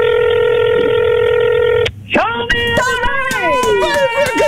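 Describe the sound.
A telephone ringing tone plays on a call placed to a radio contest winner, a loud, steady tone for about two seconds. It breaks off abruptly, and voices follow as the call is answered.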